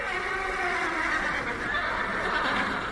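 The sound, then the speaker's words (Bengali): Two frightened horses neighing loudly in a Dracula's Guest scene, a shrill, sustained whinny that holds steady and strong for about three seconds. “লোকটাকে দেখেই ঘোড়া দুটো কান ফাটার ডাক ছাড়ল।”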